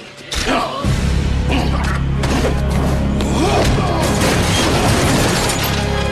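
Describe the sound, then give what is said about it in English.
A heavy crash as a man is kicked backwards through the crumbling wall of a wrecked interrogation room. A sudden thudding impact is followed by continuous crumbling, clattering debris over a low, droning rumble. “with one massive karate kick to the chest, sends him backwards through the crumbling wall of the wrecked interrogation room.”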